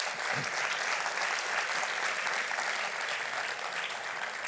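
Steady applause from an auditorium audience at a jazz lecture, thanking the audio, video and lighting technicians. Dense, even clapping fills the whole clip without a pause.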